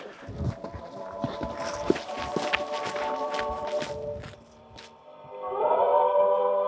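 Footsteps of people walking down a path carrying a small shoebox-sized box: steady soft steps through the first few seconds, followed by a sustained tonal drone toward the end.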